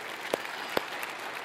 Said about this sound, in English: Truth is, yeah, you can clap for that if you want.